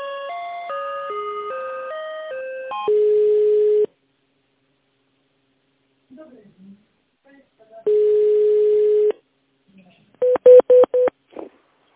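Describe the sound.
Telephone ringback tones sound while a call is transferred: a short melodic run of electronic tones, then two long, steady ring tones separated by silence, and finally a quick cluster of short beeps.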